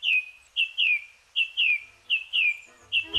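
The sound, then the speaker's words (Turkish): Birds sing at dawn in a wooded area: a series of bright, clear chirps repeating at a brisk, even rhythm, each a short high downward-sliding note, loud and alone with no talk. “Şafak vakti kuşları dinlemek için çevrenizdeki ormanlık alana gidin.”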